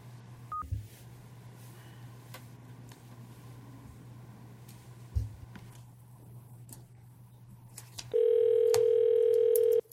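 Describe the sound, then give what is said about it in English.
Telephone dialing tones from a call placed to gather public input for a utility commission: a brief beep early, then a loud, steady electronic tone near the end, over a low constant hum, with no voices. “Would you like me to go ahead and dial him?”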